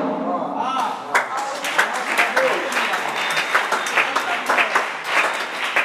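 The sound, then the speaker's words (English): Applause from an audience at an evangelical prayer service, a dense, continuous wash of hand claps with small surges that runs steadily through the whole stretch. “The way you are clapping, it is very, very weak. Lift your hands like fire.”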